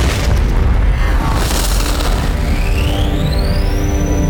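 In a science-fiction audio drama, ship weapons fire and a heavy explosion erupts as one loud, continuous rumbling roar. A thin whine climbs in pitch over the second half.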